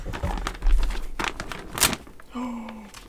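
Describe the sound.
A paper map is ripped in a few short, rasping tears and crinkles in separate bursts, followed by a faint steady hum.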